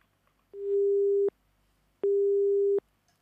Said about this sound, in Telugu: ఎవరో కాల్ చేశారు, మరి కాల్ కట్ అయిపోయింది.